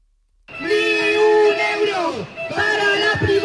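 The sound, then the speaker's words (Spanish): Students protesting in Zaragoza chant a slogan in unison after a brief silence. Many young voices shout a long, loud phrase, then a shorter, broken repeat. “Desde los más pequeños con sus gargantas. ¡Dinero público! ¡Dinero público! Hasta los más mayores con megáfonos.”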